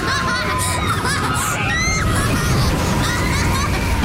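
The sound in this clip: Water rushes and splashes on the Tømmerstupet log flume at Tusenfryd amusement park, where a six-year-old boy rides for the first time. Steady sloshing mixes with crowd babble and excited, high children's voices and screams.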